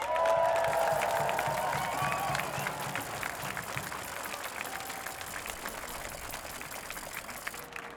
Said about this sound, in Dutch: Mag ik alsjeblieft een applaus voor Saïda Derazi.